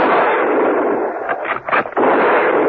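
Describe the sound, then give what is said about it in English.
Gunfire from a firing squad volley: a few sharp bursts break through dense, loud, continuous rumbling noise midway, then the steady roar resumes. “They heard the shots from the deserted garage and ran towards it.”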